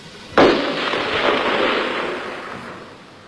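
A burst of gunfire cracks out suddenly in darkness, one sharp loud onset followed by a dense crackling roar that slowly fades over about three seconds, with no voices.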